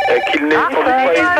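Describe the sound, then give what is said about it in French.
A telephone ringtone plays as a loud, continuous warbling melody while people talk over it. “Ça commence à me prendre la tête, celui qui s'amuse avec un téléphone comme ça.”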